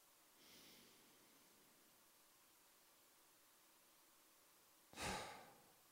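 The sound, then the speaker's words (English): Slow meditative breathing with eyes closed: a soft inhale through the nose, a long quiet pause, then a louder, breathy exhale through the mouth. “I do it with my eyes closed, and I breathe in through my nose, out through my mouth, and it looks like this.”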